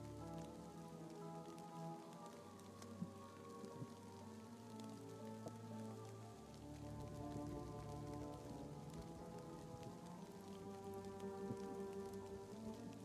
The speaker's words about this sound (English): The town is small and the rain is heavy.